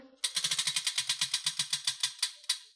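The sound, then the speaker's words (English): A game wheel given a big spin ticks in a rapid, even run of sharp clicks that gradually slows, the last few clicks spaced wider apart as it winds down. “And now we get to spin the wheel of games. Oh, wow. All right. Give it a big, big spin.”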